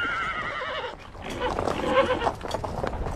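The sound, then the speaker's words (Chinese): A horse whinnies with a wavering, high neigh as mounted soldiers of an advance company ride in order at daybreak, followed by a busy, noisy clatter of movement. “天亮了，先遣连的战士们骑着马有序地前行。”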